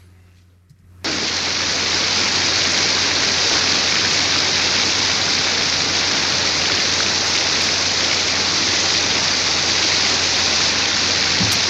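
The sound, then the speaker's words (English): Heavy rain in a film scene: a dense, even hiss of downpour that starts abruptly after a brief near-silence, then holds at constant loudness with a low hum beneath. “we're looking at her through this sort of curtain of rain.”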